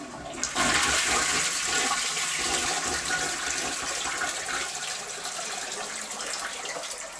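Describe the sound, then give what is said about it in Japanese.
A toilet flush starts abruptly with a loud rushing gush of water after a brief quiet moment, then holds as a steady, broad roar that eases only slightly toward the end. “パンツとズボンを上げてちょっと流します。ちょっと音量注意です。”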